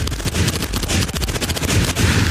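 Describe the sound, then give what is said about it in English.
Loud gunfire as thugs shoot up the stalls: a dense, continuous stream of sharp, rapid shots that runs without pause, with no voices heard. “The thugs start shooting up the stalls.”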